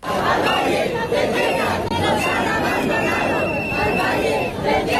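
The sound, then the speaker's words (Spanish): A crowd of dozens of protesters fills central Madrid, denouncing the neglect of the Valle del Tiétar and the lack of wildfire prevention after the Ávila fire: dense, continuous, loud babble of many voices and shouts with no pauses. “Decenas de personas denuncian en el centro de Madrid lo que dicen es el abandono del Valle del Tietar por la ausencia de medidas de prevención.”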